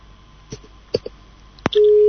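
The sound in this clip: A telephone busy tone follows a call cut off during a live radio call-in. A few scattered clicks come first, then a loud, steady, pitched tone sounds alone to the end.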